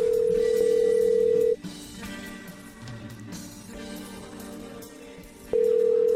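A telephone ringback tone while calling someone: a steady, loud mid-pitched tone holds for about a second and a half, gives way to quieter background sound, then starts again just before the end.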